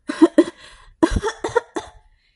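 Harsh, dry coughing from a woman stumbling out of a smoke-filled kitchen: several sharp, loud coughs in two close bursts, separated by a short pause, with no talk.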